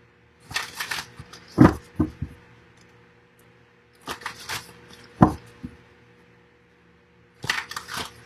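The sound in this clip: Cards drawn from a deck during a card reading: three separate bursts of crisp sliding and tapping, each a short cluster of clicks with quiet pauses between.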